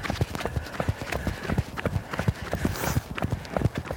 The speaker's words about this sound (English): Now this right here is ice. Yeah. That I'm running on because my feet slide.